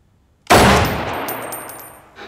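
A single handgun shot cracks out sharply after a moment of near silence, then rings and decays slowly for well over a second before a faint second knock at the end.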